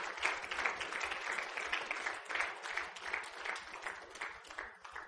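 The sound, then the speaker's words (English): An audience applauds during a church service: a steady stream of many overlapping hand claps, fairly soft and even in level, with no voices above it. “Y'all give the Lord a hand clap of praise this morning.”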